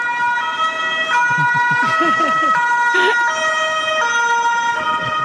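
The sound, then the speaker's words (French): A police siren wails loudly, stepping back and forth between two pitches in a steady repeating pattern, with road traffic noise running underneath. “et c'est pas la sirène de l'ambulance, c'est la sirène de la police.”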